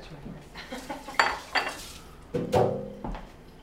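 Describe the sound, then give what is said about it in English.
Carrots are tipped into a cooking pot, giving a few hard knocks and clinks of vegetables and utensils against metal. Between the quiet clatter are scattered softer kitchen rustles. “so now we are going to add the carrots”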